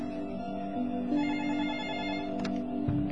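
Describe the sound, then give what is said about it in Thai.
A telephone rings with an incoming call, a faint, steady electronic ringtone of sustained tones that shift in pitch, heard alone. “ก็เดี๋ยวอย่างไรมีโทรศัพท์เข้ามานะก็เดี๋ยวจะขอรับโทรศัพท์ก่อนกันแล้วกัน”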